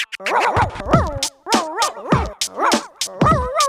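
Dog barking and yipping, a rapid string of many short, high, tonal barks with bending pitch, loud and with no voices.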